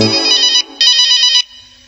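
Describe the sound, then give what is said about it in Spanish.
An electronic telephone ringtone sounds in two loud, bright bursts of ringing separated by a short gap, followed by a faint tail. “¿Qué es? El teléfono sonó.”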